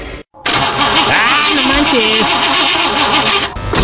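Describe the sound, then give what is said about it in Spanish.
A car engine fails to catch after fresh engine seals and new spark plugs. The starter churns loudly and steadily after a brief cutoff, with a wavering, warbling whine running through the cranking. “Le acabo de poner los sellos al motor, le cambié bujías y ya no quiere jalar.”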